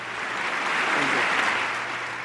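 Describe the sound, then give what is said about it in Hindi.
Dense, loud applause rolls through a joint session of the US Congress during the Indian prime minister's address, swelling slightly in the middle and easing toward the end. “उन्होंने अमरीकी संसद यानी कांग्रेस की साझा बैठक में अपनी speech दी तालियों की गड़गड़ाहटों के बीच।”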